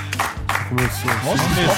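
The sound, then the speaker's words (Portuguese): An audience gives a round of applause: a few sharp claps, then voices talking and calling out over more clapping. “A salva de palmas pra mim.”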